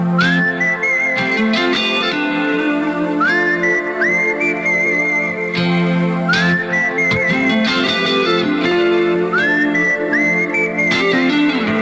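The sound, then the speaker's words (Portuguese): A whistled melody from a German rock band's ballad, released the year after the fall of the Berlin Wall, rides over a full band backing. The bright whistle repeats the same phrase several times, each opening with an upward glide, and no one talks. “que penso que aqui toda a gente reconhece através de este assobio”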